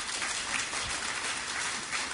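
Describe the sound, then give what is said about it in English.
Audience applause for an assistant and two helpers, a dense, continuous patter of many hands clapping at a fairly soft, even level. “Can I have a round of applause for my assistant Katie and for Jane and Anna?”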